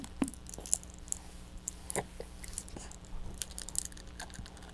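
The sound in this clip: Crunchy gnawing and chewing from a pet biting at something: a scattered run of short, sharp crunches and clicks at uneven intervals, fairly faint, with no voices.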